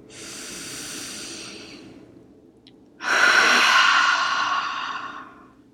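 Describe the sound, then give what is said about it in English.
A deep breath taken during guided breathing, heard as two long, airy, hissing breaths with a short pause between them, the second louder than the first, with no talk. “Let's take another deep breath together.”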